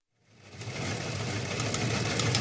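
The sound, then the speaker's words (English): An old newswire teletype machine fades in quickly and then chatters steadily with a continuous, busy mechanical clatter that stays even in loudness. “There's that old newswire machine.”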